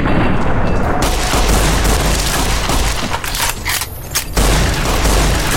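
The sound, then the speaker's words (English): Video game gunfire: dense, continuous shots and booming blasts roll together at steady high loudness for the whole stretch, with no talk over them. “I'm gonna shoot you in the head. I'm gonna do this in a way where I can shoot you right in the noggin.”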